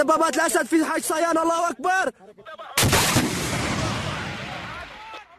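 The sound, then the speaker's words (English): A BGM-71 TOW anti-tank missile, a 1970s weapon, is launched by fighters in Syria at a checkpoint: after a few seconds of raised voices, one sudden loud blast bursts out and fades into a long roaring rush. “This video is said to be from a relatively new faction of the Free Syrian Army, and the men in it are shown launching a TOW missile at what they describe as a government checkpoint.”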